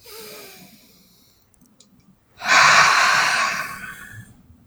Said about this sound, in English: Deep breath again.